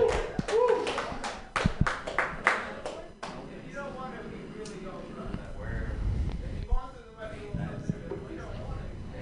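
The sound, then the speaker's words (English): A small comedy-show audience breaks into scattered, uneven claps for a brief round of applause. The clapping fades after a few seconds, and a man keeps talking over the quieter room. “Who wants to see this man try his hand at comedy for a couple minutes? Round of applause if you guys want to see this guy.”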